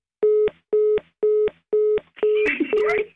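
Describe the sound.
Telephone call tones sound while a call connects: five short, even beeps at a steady pulse. The last beep runs longer, and voices and noise break in over it.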